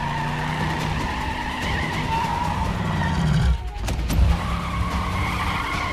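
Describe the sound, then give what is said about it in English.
Tires of a silver Camaro skidding as it is thrown into reverse, a continuous rough screech and engine roar that breaks briefly midway before a sharp renewed burst. “He gets into the silver Camaro and throws it in reverse.”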